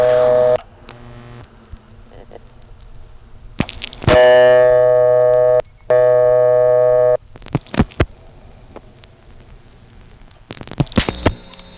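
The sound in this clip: Touch-tone dialing of a number on a payphone: a few short electronic beeps mixed with clunks and clicks, plus two longer steady electronic tones earlier in the sequence.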